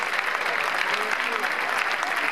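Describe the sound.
Audience applause after a tenor's song at an orchestral concert in Loreto: steady, dense clapping from a crowd that holds at an even, loud level throughout.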